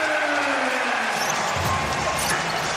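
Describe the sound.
Basketball dribbling during an NBA Warriors game, with a few dull, low bounces under a steady, loud arena crowd roar.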